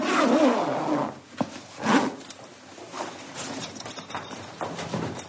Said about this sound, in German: verschließt er noch einen Leichensack